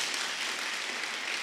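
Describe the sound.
A church audience applauds during a service, a thick, even wash of many claps that blur into constant noise, steady and unbroken for the whole short moment.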